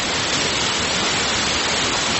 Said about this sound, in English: The water's coming in this way. It's impressive.